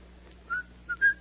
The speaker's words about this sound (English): I notice you whistle that tune when things are going well.